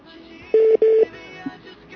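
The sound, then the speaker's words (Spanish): Disconnect tone after a phone call is hung up: two loud, short electronic beeps at one steady pitch, close together, then quiet line noise. “Yo creo que le colgó la llamada. Me colgó”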